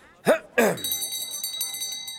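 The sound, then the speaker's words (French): A copper bell rings with a bright, high, sustained tone that slowly fades, following two short vocal exclamations. “Je vois que cette cloche est faite de cuivre de qualité Vezelton.”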